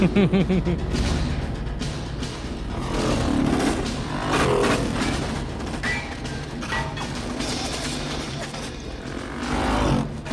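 Motorcycle engines roar through a video game scene set in a factory, a dense, continuous drone with revving surges that rise and fall across the whole stretch.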